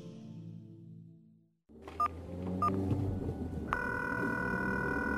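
A telephone call is being placed: a couple of short key beeps sound, then a steady electronic ringing tone begins and holds over a low continuous background.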